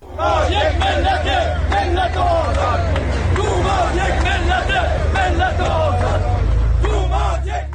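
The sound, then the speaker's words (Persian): A crowd of retired social security workers chants slogans at a rally in Ahvaz over living conditions, loud massed voices shouting in repeated rhythmic bursts without a break. “این صدای بازنشستگان تأمین اجتماعی است در اهواز که برای بهبود وضعیت معیشتی تجمع کرده بودند و در حمایت از توماج صالحی شعار سر دادند.”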